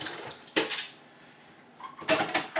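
A dish is rinsed under water, heard as two short bursts of hissing, splashing flow separated by a quiet gap.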